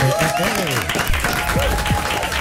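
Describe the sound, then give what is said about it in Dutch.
Studio audience applauding a band: a steady, dense wash of clapping that continues under a person speaking throughout. “Groot applaus voor Dirt Cap!”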